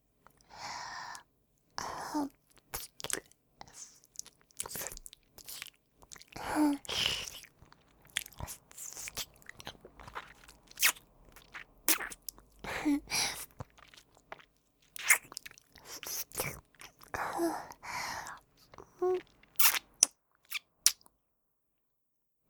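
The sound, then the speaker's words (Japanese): Close-up ASMR mouth sounds of biting and chewing in a roleplay of eating a finger: wet crunches and nibbles in irregular bursts separated by quiet gaps, with soft breathy sounds between them. “スラッとしていて綺麗な人差し指いただいてしまいます。いただきます、お姉ちゃん。”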